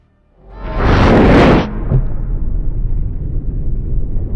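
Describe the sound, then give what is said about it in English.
Deep rumbling sound effect from the dumpster scene in David Lynch's 2001 film Mulholland Drive: a loud, roaring whoosh swells for about a second, then gives way to a sustained low rumble. “With a great dumpster sound effect.”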